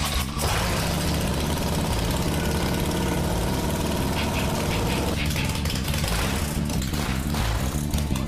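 A stretched-out chrome motorcycle engine catches and settles into a loud, steady idle, a deep rumble with a rough knocking pulse throughout and a slight change in tone partway through.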